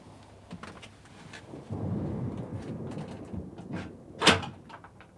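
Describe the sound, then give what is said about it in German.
A door bolt slides shut in a ship's cabin: one sharp, prominent metallic scrape near the end, heard over a steady rushing noise. “Schieb den Riegel wieder vor.”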